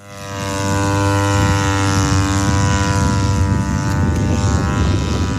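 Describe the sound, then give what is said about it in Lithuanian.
A Lithuanian-made, Shahed-type unmanned drone takes off with a propeller engine drone. It swells over the first second into a loud, steady buzzing hum with strong harmonic tones over low rumbling noise. “Juragiuose į dangų kyla lietuvių gamintojo Ami Wings bepilotis orlaivis. Jis yra Shahed drono tipo.”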